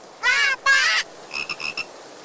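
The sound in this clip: Frog croaking: two long, raspy, buzzing croaks followed by a quick series of shorter, fainter chirping notes.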